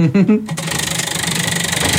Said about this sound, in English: I have a spinning wheel. Hopefully you can hear it, guys.